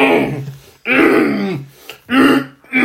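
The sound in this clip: A voice imitates a horse-like vocal tic, a few loud, harsh, throaty grunting bursts in quick succession with brief gaps between them.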